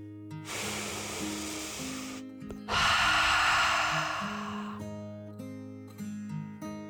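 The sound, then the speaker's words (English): A person takes a deep, slow dragon breath, a long breathy inhale followed by a louder, rushing exhale, both heard over soft, steady music. “He smiled and took another deep dragon breath in and out.”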